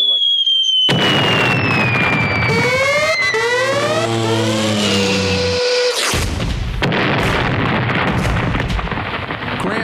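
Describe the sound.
Bombs burst in the air: several whistles fall steadily in pitch over a constant loud roar, then a heavy burst cuts in and the roar carries on.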